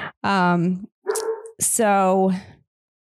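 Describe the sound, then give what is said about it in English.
A dog barks in three drawn-out, tonal yelps that come in quick succession, loud and clear, with no other sound standing out. “You can probably hear my dog barking.”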